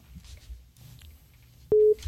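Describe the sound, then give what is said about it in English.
A telephone line signal sounds as a caller connects to a radio show: one short, loud, steady electronic tone breaks in after faint background noise. “But as we await that caller to come through, there is, all right, here we go, that same caller coming through.”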